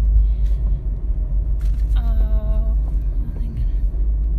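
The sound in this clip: A car driving through a construction zone gives a low, steady rumble, with a voice talking over it.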